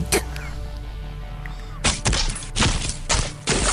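Gunshot sound effects: several loud, sharp bangs fire in quick succession in the second half, after a quieter opening with one earlier short crack.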